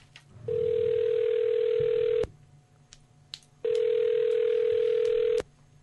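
Telephone line tone while placing a call to a toy shop: two long, steady, loud tones separated by a short pause, with faint clicks between them and no talk.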